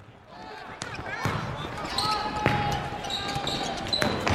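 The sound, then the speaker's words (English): A basketball bouncing during a game, a few hollow thumps spaced irregularly amid ongoing court noise and high squeaks. “They're playing basketball.”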